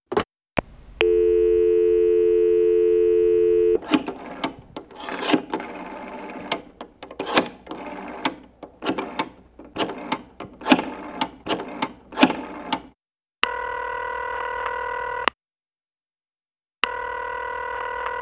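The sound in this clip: Telephone dial tone holds steady for a few seconds, then a quick, irregular run of dialing clicks and beeps, followed by a longer steady telephone tone, a silent gap and the tone again.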